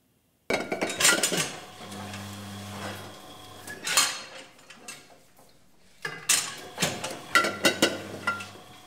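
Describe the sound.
Wine bottles clink together at a winery on a farm estate, many bright glassy knocks and rattles in irregular bursts, with a low mechanical hum underneath at times.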